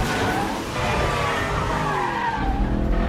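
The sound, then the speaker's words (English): Car tyres skid and squeal continuously as the car swerves through an intersection, with a loud engine roar underneath throughout. “spins the wheel, trying to avoid other cars as they cut across an intersection”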